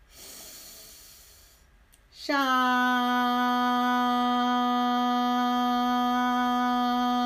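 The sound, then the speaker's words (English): A slow inhale during a guided meditation, a soft airy breath drawn in for about two seconds. It is followed by a loud, bright, sustained harmonic ringing tone that holds steady to the end. “Breathe in.”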